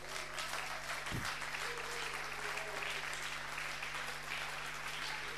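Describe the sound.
A church audience applauds in dense, continuous clapping that holds at a steady, full level throughout without a pause.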